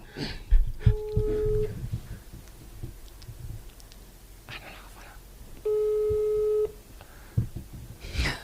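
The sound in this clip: A telephone busy tone after a call is hung up: two steady, clear beeps about a second long with a long gap between them. Faint whispering voices and rustling come and go around the tones.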